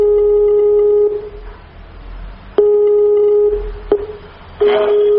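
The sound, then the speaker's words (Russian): Ringing tone of an outgoing Skype call: a steady, mid-pitched electronic tone in three bursts, separated by gaps of low background hiss. “Так, я звоню по скайпу.”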